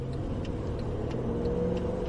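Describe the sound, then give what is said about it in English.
Steady low road rumble of a Mercedes car cruising on a German Autobahn with its Distronic cruise control switched on, an even, unbroken drone with no talking. “So now we are on the highway and I switch on the Distronic.”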